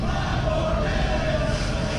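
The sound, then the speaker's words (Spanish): A wrestling crowd chanting and demanding five more minutes between two wrestlers: a dense, loud roar of many voices holds steady throughout, with a sustained chanted note running through it. “Pero un momento, el público está pidiendo 5 minutos más entre estos dos”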